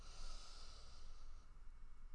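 A deep breath taken during a guided relaxation exercise, a steady soft airy hiss lasting about two seconds and fading toward the end, heard alone.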